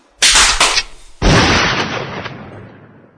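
A gunshot sound effect: two loud, sharp blasts. The second one booms and decays slowly into a long fading rumble.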